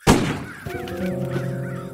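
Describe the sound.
A sharp hit from a shot is followed by a bird cawing. Its harsh, drawn-out calls carry wavering harmonics and continue to the end.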